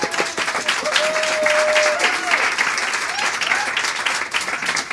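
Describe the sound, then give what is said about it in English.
Audience members snap their fingers instead of applauding at a book event. Many snaps blend into a dense, steady crackle that runs throughout. “I love the snapping. I've never seen it before. I'm all about it. It was a poetry thing.”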